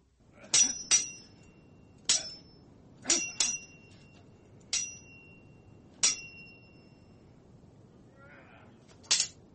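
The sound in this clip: Swords clink in a sound effect: many sharp metallic rings, some struck in quick pairs, spaced irregularly over several seconds with brief ringing tails between them.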